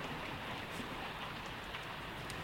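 Steady rain falling during a storm, a dense, even hiss of drops that stays quiet and unbroken throughout, with no voices.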